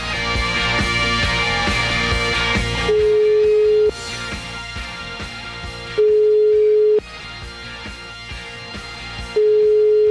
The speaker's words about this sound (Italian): Comunque proviamo a chiamare questo tizio, va, vi siete procurati il numero? Sì, chiamiamo, vai.